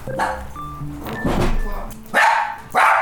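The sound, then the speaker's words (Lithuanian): A puppy barks twice near the end with sharp, high-pitched yaps. Before them come muffled thumps and a busy, indistinct background. “Labai mielas tas šuniukas”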